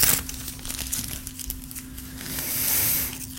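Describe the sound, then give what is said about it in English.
Thin Bible pages crinkle and rip as a two-page chapter is torn out, a soft papery rustle that swells into a longer, louder tearing stretch near the end over a steady low hum. “I think I'm going to have to tear that whole chapter out. So that's 2 pages.”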